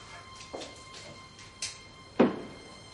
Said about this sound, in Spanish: En la azotea la puerta se abre y se cierra por el viento de manera constante.